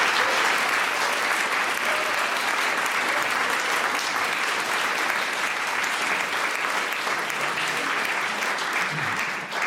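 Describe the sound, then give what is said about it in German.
Audience applause fills a literary event at the Literarisches Kolloquium as an author is welcomed, a dense, loud, continuous clapping that holds steady throughout. “Regelrechte Fanrufe gibt es hier im Literarischen Kolloquium. Das ist sehr schön, das soll so bleiben.”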